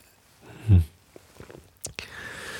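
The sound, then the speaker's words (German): A single sip of a drink, heard as one soft, low gulp followed by small mouth clicks and a faint breath. “So, einen Schluck getrunken, vielleicht geht meine Stimme dann gleich wieder besser.”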